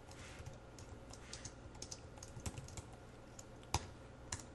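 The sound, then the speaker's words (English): Typing on a computer keyboard while writing code: many quick, irregular soft clicks and taps with occasional sharper keystrokes, and no talking. “I typed that out a little bit incorrectly there. I needed an equal sign.”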